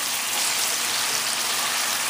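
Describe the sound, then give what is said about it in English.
Chicken frying and browning in a pan: a loud, continuous sizzling hiss that stays even and unbroken throughout. “Now we're just gonna turn this around until you see that the chicken is a little bit browned,”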